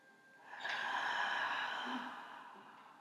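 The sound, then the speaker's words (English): A forceful exhale during a guided chakra breathing exercise: a loud, breathy rush of air that holds steady for about two seconds, then tapers off, with no talking over it. “And three sharp exhales.”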